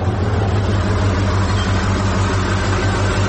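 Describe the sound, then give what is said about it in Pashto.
A lorry's engine runs on the road with a steady, loud low rumble and a broad roar that holds level for the whole few seconds, with no voices. “یوه لاړۍ خو راغله، همدا لاړۍ ته به لاس ورکړم.”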